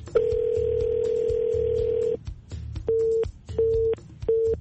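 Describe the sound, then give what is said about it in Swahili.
A telephone line tone sounds after a call drops: one long steady mid-pitched tone, then three short repeated beeps with a low background rumble beneath. “Tumemkosa hapo Nisikanabo kwa njia ya simu, lakini ana ujumbe tayari.”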